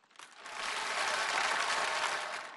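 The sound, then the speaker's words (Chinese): Audience applause at a live stage performance swells quickly into a brief, dense burst of clapping, holds briefly, then tapers off, fairly soft overall with no talk. “我没想到掌声这么热烈”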